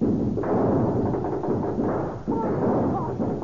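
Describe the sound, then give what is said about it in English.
Gunfire from a posse shootout in a radio crime drama: dense, rumbling blasts with a few sharp onsets that run almost without a break, with voices faintly mixed in. “Boys, here, open fire!”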